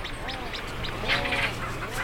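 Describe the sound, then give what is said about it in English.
Storm petrels squawking at their nesting burrows: a busy stream of overlapping, rhythmic chattering calls with harsh, wavering tones, continuous at a moderate level. “They pretty quickly get drowned out by storm petrels, so that's the ones that go do-do-do-do and are squawking.”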